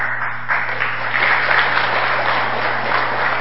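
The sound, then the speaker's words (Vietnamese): Applause from the audience at a Buddhist lecture: dense, steady clapping fills the whole clip at an even level, with a low hum underneath. “Hiểu gì không? Vỗ tay.”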